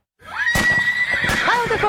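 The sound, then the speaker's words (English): A horse whinnies loudly in a riding-stable setting: a long, wavering, high neigh that lasts about a second and a half, with breathy bursts at its start and a pitch that swings up and down before it trails off. “We buy, sell, trade horses. We board horses, lease horses.”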